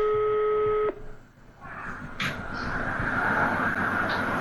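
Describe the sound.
Telephone ringing tone while a call is placed: one steady buzzing tone lasting under a second at the start, then a broad hissing, rumbling noise.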